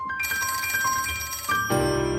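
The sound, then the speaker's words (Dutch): A telephone rings as a call is placed: bright, steady tonal ringing that holds evenly, then shifts to a different, fuller tone near the end, with no voices. “Bellen met brigadegeneraal dokter Han Bouwmeester.”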